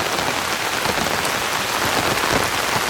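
Rain falls on an open umbrella as a steady, dense patter of countless drops blending into an unbroken hiss. It is fairly loud, with no other sound.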